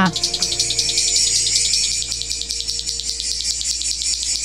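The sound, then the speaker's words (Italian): A cicada chirps in a loud, high rasping buzz that pulses in rapid, regular beats. The sound holds steady throughout, with a faint low tone underneath. “chiudiamo con la nostra amica Cicala!”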